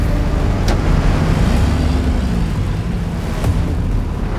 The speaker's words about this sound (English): Soldiers jump into armored vehicles and speed off towards the gates.